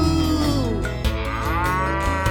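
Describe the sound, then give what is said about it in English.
A cow moos in one loud, drawn-out, deep call that holds for about two seconds, rich in harmonics and with nothing else heard over it. “A cow says moo.”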